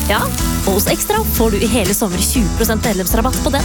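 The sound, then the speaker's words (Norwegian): A big beef burger sizzles on a grill, giving a steady hiss under continuous talk from a speaker. “Det er lyden av en grill.”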